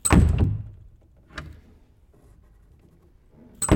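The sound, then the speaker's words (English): A door on a theatre stage set, one of the side doors used for exits and entrances, opens and closes. A heavy thump comes first, a lighter knock follows, and another firm thump lands at the end, with quiet between. “There are doors on either side of the stage for exits and entrances. Here's the sound of one opening and closing.”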